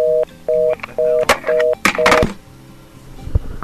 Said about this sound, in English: the dial button on a caller ID box doesn't work that well.